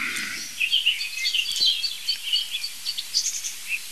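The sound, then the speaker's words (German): A common blackbird and a song thrush sing, a long run of short, bright chirping and whistled phrases, fairly faint and with no voices. “Passt doch nicht, aber es ist Amsel-Singdossel only, würde ich sagen.”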